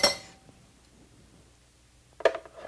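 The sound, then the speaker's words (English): A metal spoon clinks and scrapes while scooping pits out of fruit for a smoothie. Two bright clinks, one at the start and one near the end, frame a stretch of quiet, faint scraping. “let's go get a spoon and get those pits out.”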